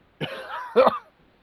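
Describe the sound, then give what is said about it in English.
Coughing from dust in the lungs after time in a dusty warehouse: two rough, voiced cough bursts in quick succession, the second louder, then quiet. “Why are you coughing? You didn't even get hurt. I got dust in my lungs from all that warehousery.”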